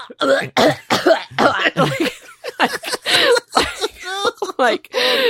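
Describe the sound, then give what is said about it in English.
A person imitates violent coughing and choking over a large kitchen sink with their own voice: a rapid, loud series of harsh coughs, gagging bursts and retching noises in an uneven rhythm. “And then suddenly I'm coughing so much, I'm gonna vomit. I end up in the kitchen just leaning over our giant sink and I'm just like going,”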